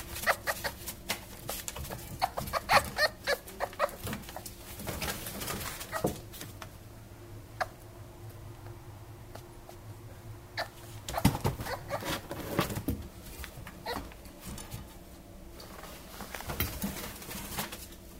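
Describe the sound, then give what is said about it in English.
A fox gives a series of harsh, clucking, bird-like calls in several irregular bursts separated by quieter stretches. The calls are moderately faint, and no voices are heard. “But the answer is that it's actually a fox.”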